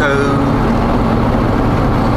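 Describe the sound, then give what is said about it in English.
Steady low rumble fills the interior of a car, a dense, continuous road-and-engine drone that holds at the same level from start to finish without any distinct events. “for those listeners who haven't figured it out, we're recording with the Eye River in Studio C, which would be my car.”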